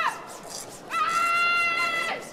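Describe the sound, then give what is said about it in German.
A voice imitates an angry parent yelling at a child over a messy, unswept room: a short shout, then a loud, high, strained yell sustained for just over a second. “Also brüllen die vielleicht sogar manchmal in etwa so?”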